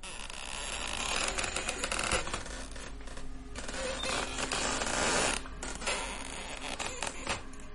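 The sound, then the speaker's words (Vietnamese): A wooden door hinge creaks as the door slowly swings open, a drawn-out, grating creak with rough, scratchy bursts that lasts several seconds with no voices. “Cánh cửa từ từ hé mở, kèm theo tiếng bản lề gỗ vặn vẹo.”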